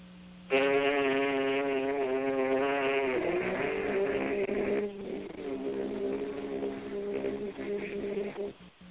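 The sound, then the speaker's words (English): A horn player buzzes one note with the lips while singing another at the same time, making a loud, rough, buzzy drone. It holds steady, then drops to a lower, wavering blend for several seconds before stopping. “I can buzz a note and sing a note at the same time. It would sound like this.”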